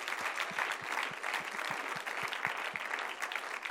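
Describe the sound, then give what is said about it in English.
Church audience applauding the praise team, a dense, steady wash of many hands clapping at a moderate level, with individual claps popping out of the texture but no pause in the applause. “Why don't we give our praise team honor today with a hand clap?”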